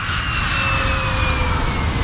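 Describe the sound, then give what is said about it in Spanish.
Airplane in flight, heard as a loud, steady jet roar with a thin high whine running through it and no breaks. “Ursula von der Leyen, presidenta de la Comisión Europea, viaja en avión.”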